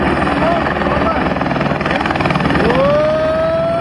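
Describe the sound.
Firefighting helicopters fly over a forest fire in Marmaris, their rotors making a steady, loud, rapid thudding drone throughout, while a voice talks over it and a whining tone rises near the end.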